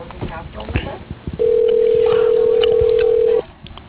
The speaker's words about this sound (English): Using the dial pad, please enter the...